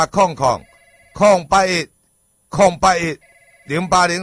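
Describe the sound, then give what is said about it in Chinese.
Telephone ringing: steady electronic ring tones sound in two short bursts, each heard in a gap between stretches of loud talk. “啊，电话”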